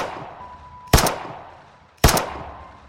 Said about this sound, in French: Jerry Enel demande la projection d'une vidéo qui montre l'accusé s'exercer au fusil sur un champ de tir en visant des pastèques